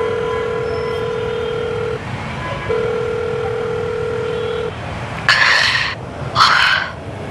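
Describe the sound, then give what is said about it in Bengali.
Telephone dial tone, a steady low tone broken by a short gap, then two bursts of dialing tones as a call is placed after crossing a street; no voices. “রাস্তা পার হয়ে সে একটা phone করল।”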